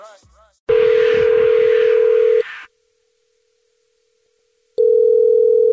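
A telephone call being placed sounds a steady, loud electronic tone for a couple of seconds under a hissy rush, then stops. After a near-silent pause the same unbroken tone returns, following the line's ringing pattern.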